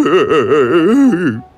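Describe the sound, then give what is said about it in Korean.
A father, the king in a fairy tale, weeps aloud: one long voiced wail with a quavering, wobbling pitch. It stays loud throughout, then trails off abruptly at the end. “지금 울고 있는 건 아빠밖에 없어요.”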